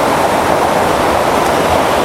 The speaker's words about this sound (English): I need to cross this river again.